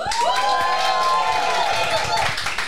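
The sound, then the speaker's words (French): An audience at a live music quiz show cheering on the contestants, with loud whooping shouts over a continuous roar of crowd noise. “Je vous demande public de bien vouloir les encourager”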